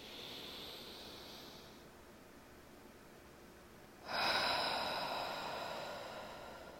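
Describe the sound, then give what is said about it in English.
A deep breath is drawn in during a guided breathing and stretching exercise. Soft, airy breath noise swells suddenly into a louder rush partway through, then slowly fades. “Let's take a deep breath here. And inhale.”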